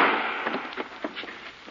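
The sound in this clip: A gunshot in a 1940 radio drama bursts sharply at the start and fades into a rumbling tail scattered with softer pops.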